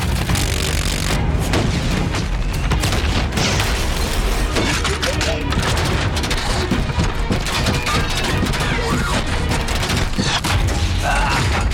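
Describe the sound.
Rockets are fired and explode in a dense, unbroken barrage of booms, blasts and crackling impacts that stays loud throughout, with voices mixed into the chaos.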